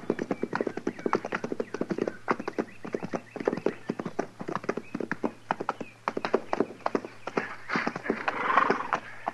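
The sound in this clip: Horses' hooves clip-clop steadily as riders head over toward a fort, with many quick, crisp hoofbeats in an irregular rhythm over a faint low hum.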